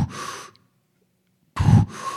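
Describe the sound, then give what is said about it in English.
A human voice imitates an orca's quick breathing heard while sea kayaking: one sharp, breathy rush, a silent pause, then a fast pair of forceful exhale and inhale sounds. “it's kind of the quick inhalation, exhalation of the orca”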